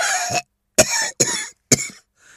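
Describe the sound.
A man's coughing fit after choking: four loud, harsh coughs in quick bursts separated by short gaps, followed by a faint trailing breath, with no talking.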